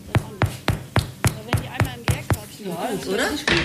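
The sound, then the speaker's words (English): Knuckles knock on freshly baked bread loaves to test whether they are done, giving nine evenly spaced, hollow knocks in a steady rhythm, followed by a voice speaking. “So, und jetzt machen wir mal die Klopfprobe.”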